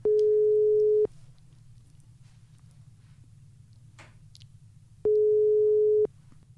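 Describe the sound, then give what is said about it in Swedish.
Ringback tone of an outgoing telephone call: two steady, mid-pitched one-second tones separated by about four seconds of quiet line hiss, with no talking. “Skal vi slå på tråden? Ja. Ja, vi gjør det.”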